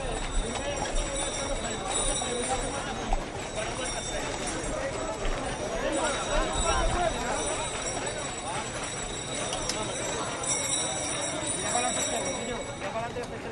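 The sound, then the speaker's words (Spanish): Hooves of mules pulling a cart during a pilgrimage procession entering El Rocío, Huelva, clip-clopping irregularly beneath nearly continuous talk. “no es tanta dificultad como los mulos, ¿no? que tienen que hacer el esfuerzo nuevamente para tirar de la carreta.”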